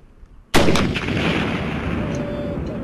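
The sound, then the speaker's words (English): A Carl Gustaf recoilless rifle fires a single round: one sudden, very loud blast followed by a long, roaring rush of gas and rumble that slowly fades. “And as it fires, the weapon directs an explosive burst of hot gases out the back of the barrel.”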